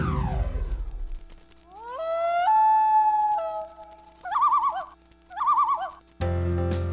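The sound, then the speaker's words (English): A common loon calls in the wilderness: one long, rising wail that holds steady, then two shorter wavering tremolo calls, clear and loud with no talk over them. “That sound? It's the voice of the wilderness. The call of the common loon.”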